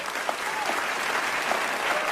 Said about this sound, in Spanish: ¡Aplausos!